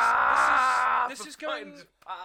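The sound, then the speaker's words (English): A man's voice imitates Goku's screaming power-up charge from Dragon Ball: a loud, strained, sustained yell lasting about a second, then a short stretch of talk. “The guy that does the English version of Goku, he passed out doing the fucking... The screaming. The screaming charge.”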